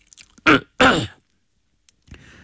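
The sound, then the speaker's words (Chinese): Someone clears their throat in two loud, rasping bursts, with faint breathy sounds just before and a soft brief noise after a pause. “等大家安静下来，齐共这才清了清嗓子。”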